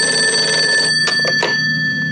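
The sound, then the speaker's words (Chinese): A telephone rings with a steady bright trill, then stops, followed by a few short sharp clicks. “立即给我接通薛伯林电话。”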